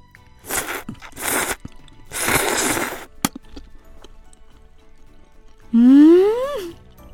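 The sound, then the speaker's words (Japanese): Noodle eating sounds as flat noodles of ozara, a Yamanashi local dish, are dipped into cold broth and slurped: three loud, noisy slurping bursts, the last one longest, then a clear rising tone that ends sharply. “早速ですが、いただきます。まず麺をつゆにつけまして、”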